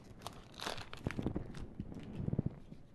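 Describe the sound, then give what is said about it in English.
Quiet crinkling and tearing of a trading card set booster pack being ripped open, with a few sharp crackly bursts of wrapper noise and no talking. “Open a couple more of these. Set boosters are fun.”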